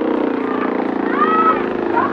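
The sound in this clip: A boat heading in toward a small island gives a loud, steady engine drone with a buzzing, humming tone that holds throughout.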